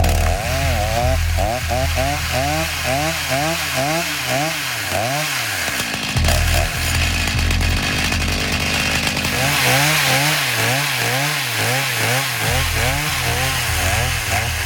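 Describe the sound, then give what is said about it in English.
A chainsaw winch engine drones steadily while dragging a large animal out of the water onto dry ground, anchored to a tree on the bank; the engine's pitch rises and falls in repeated surges, breaks off briefly midway, then resumes. “I'm gonna get a chainsaw winch, tie it up to a tree up on the bank, and drag him out onto some dry ground to get this guy field dressed.”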